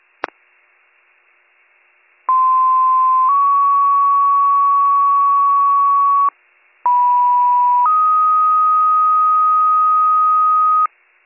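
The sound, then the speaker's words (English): Radio dispatch alert tones for a fire call: two long two-tone sequences, each a steady lower tone stepping up to a higher held tone, loud and alone, with a short gap between them and a brief click before the first. “Receive, I'll send out tones.”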